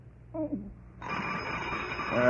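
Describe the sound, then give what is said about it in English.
A telephone bell starts ringing after a brief voice, a loud, continuous, shrill metallic jangle that keeps going to the end. “Get the phone”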